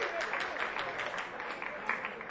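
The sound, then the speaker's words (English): Audience applause at a live music performance, a dense, steady wash of clapping that holds at a moderate level throughout, with a few brief louder peaks. “Give us a round of applause for coming out.”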